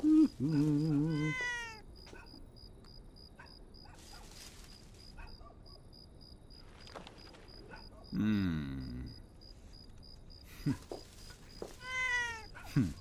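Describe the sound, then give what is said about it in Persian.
A pet cat meows a few times, with drawn-out, tonal cries at the start, in the middle and at the end. Quieter stretches and some human speech fill the gaps between them. “گشنت پیشی؟”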